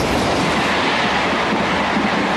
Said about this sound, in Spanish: El tren llega a una estación de París.